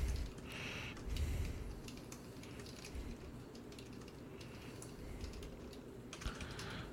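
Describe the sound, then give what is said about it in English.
Faint typing on a computer keyboard, many quick, uneven key clicks in a steady stream with short pauses and no talk. “So he's typing. Typing right now.”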